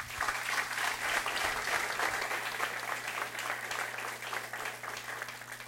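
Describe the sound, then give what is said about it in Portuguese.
Steady applause from an audience during a religious worship service, dense and even clapping sustained for the whole stretch without a break, over a low electrical hum. “Dê um aplauso ao Espírito Santo.”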